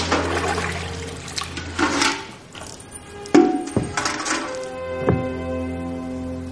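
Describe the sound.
Water drawn from a convent well by two young women in the morning: sloshing and splashing water with several hollow knocks and thuds, uneven and fairly loud, with no talk.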